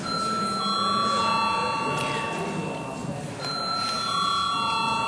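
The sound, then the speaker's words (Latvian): An electric bell rings in a parliament chamber before a vote: a sustained, bright metallic ringing tone, loud and steady, cut off briefly midway before resuming to the end. “Lūdzu zvanu.”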